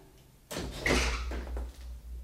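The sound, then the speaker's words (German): A door being opened in an unfinished house: one low, scraping movement begins abruptly and lasts about a second and a half, fairly faint, with no voices. “Du, hier ist eine Tür.”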